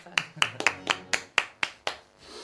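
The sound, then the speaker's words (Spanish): Sharp, separate hand claps, a short run of them rising from near silence on a comedy radio show, with no talk. “Muchas gracias, Mozart. Menos gracias. Mal que se murió usted. Gracias, Mozart. Un aplauso.”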